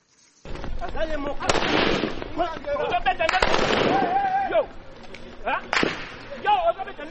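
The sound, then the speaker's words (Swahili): Police gunfire dispersing opposition supporters who are protesting election results in a neighbourhood of northern Goma, Democratic Republic of Congo: a few sharp, loud cracks ring out amid raised crowd voices. “Huo ni mlio wa risasi kutoka kwa polisi ya Jamhuri ya Kidemokrasia ya Kongo”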